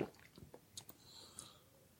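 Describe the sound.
Quiet chewing of a banana-flavoured snack: a few soft, moist bites and mouth sounds, faint and without talk.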